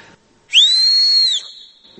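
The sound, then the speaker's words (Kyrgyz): A person whistles through the hand instead of using a whistle, giving one loud, high, sustained tone that holds a steady pitch for about a second. “ышкырыгым жок, колум менен ышкырып жүрөм азыр.”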